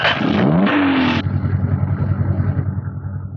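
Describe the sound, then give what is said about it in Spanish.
A car engine starts on a winding mountain road: a rising starter whine lasts about a second, then the engine catches and settles into a steady, throbbing idle. “pone en marcha el motor”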